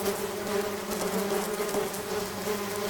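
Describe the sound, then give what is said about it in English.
Many bees buzz in a dense, continuous drone, steady and moderately loud throughout with no other sounds. “I'll hook you up with these bees, neighbor.”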